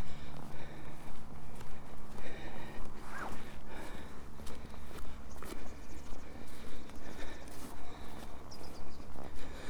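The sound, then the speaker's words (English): Footsteps climb steeply up a hill through woodland, with many even, rhythmic steps continuing throughout at a steady pace. “And I'm now climbing through woodland, steeply up Lambert's Castle.”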